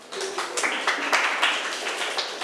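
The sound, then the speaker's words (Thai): Clapping from students in a classroom, applauding a classmate, comes as a loose series of separate, sharp hand claps in an irregular rhythm that grows slightly fuller partway through. “เก่งมากค่ะปรบมือให้เพื่อนหน่อยค่ะ”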